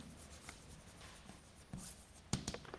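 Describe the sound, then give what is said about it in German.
Handwriting of a single word during a maths lecture: soft, faint scratching strokes, closing with a couple of sharper taps and scrapes, no voices. “oder ich schreibe schon mal das wichtige Wort hin”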